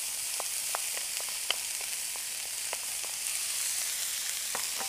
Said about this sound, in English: I'm going to start and stir that up a little bit, and I'm going to let this cook for a little bit, just get some heat on it